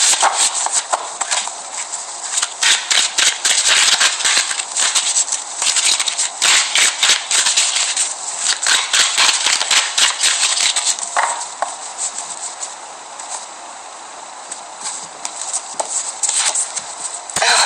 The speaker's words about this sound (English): So let's pull some cards to look at this life journey with each other.